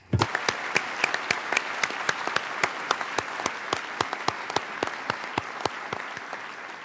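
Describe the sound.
Applause fills the hall of the UN Permanent Forum on Indigenous Issues as its chair is elected by acclamation: many hands clapping in a dense, even patter, sharp claps poking through, sustained at a steady level throughout.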